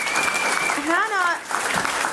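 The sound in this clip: Audience applause greeting an arriving guest, a loud, steady wash of clapping with a cheering voice whooping and rising over it midway.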